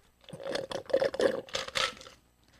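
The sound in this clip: Ice being chewed gives a run of dry, crackly crunches, a few uneven bursts close together, moderately loud and heard alone without talk.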